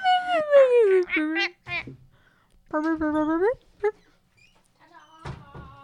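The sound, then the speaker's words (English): A dog screams in high, whiny, wailing bursts that sound like a sad toddler crying. There are several cries, some sliding down in pitch, broken by short gaps of quiet. “there's a crazy dog who screams like a sad toddler.”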